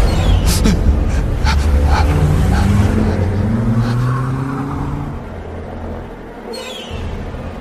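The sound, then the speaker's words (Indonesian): A car engine revs and pulls away as a ride-hailing driver's car accelerates off a bridge, its low rumbling note climbing steadily in pitch before easing off toward the end. “Tanpa pikir panjang aku lalu tancap gas meninggalkan jembatan itu.”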